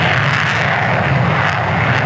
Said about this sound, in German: Zweimal täglich wird es laut, wenn die Kampfjets abheben.